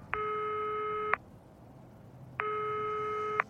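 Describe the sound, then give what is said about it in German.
A telephone ringing tone sounds while a call is placed: two steady electronic tone pulses, each about a second long, separated by a silent gap of similar length, fairly faint and alone. “Zurück bleiben Jona und Marie, die gerade Hugo anrufen.”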